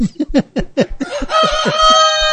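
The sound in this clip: A rooster gives a quick run of sharp clucks, then breaks into a sustained, harmonic crow that carries loudly to the end.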